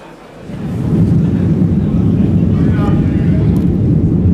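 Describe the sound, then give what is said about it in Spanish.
Cabin drone of an Iberia airplane in flight on the final stretch toward Granada, a steady low rumble that swells over the first second and then holds loud and constant. “Ahora nos hemos subido de nuevo a un avión de Iberia. Mientras sobrevolamos el último tramo de vuelo camino de Granada”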